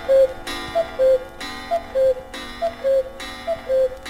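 A clock marking twelve noon gives four loud, evenly spaced strikes, each separated by short, high tonal ticks in a steady alternating rhythm, heard alone with no voices.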